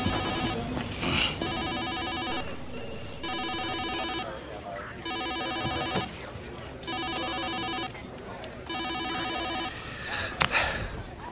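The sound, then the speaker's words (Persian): A telephone rings unanswered, its bright electronic trill repeating in regular bursts separated by short pauses across roughly eleven seconds at a steady moderate level. “دو ساعت زنگ میخوره، بردار دیگه.”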